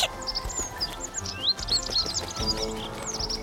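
A small bird chirping: many quick, faint, high-pitched chirps and tweets in irregular bursts over low clattering and rumbling.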